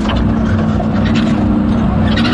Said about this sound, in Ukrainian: І ось машиною доїжджаємо до певної точки.